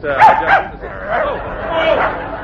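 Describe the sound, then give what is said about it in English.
A small, playful dog yaps and barks: a few sharp, high yips at the start, then rougher, busier barking that carries on to the end. “You're right. It is the dog basket. No. Oh, come along, Pinky. Pinky dear, Pinky. Let go of the gentleman's leg, Pinky. Oh, dear, you see, he's a playful little fellow.”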